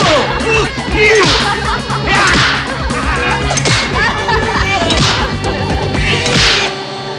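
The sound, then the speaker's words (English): Heavy blows strike a man lying prone on the floor, a few sharp smacks that recur at uneven intervals over dense, loud background noise. “Han smashes prone Williams.”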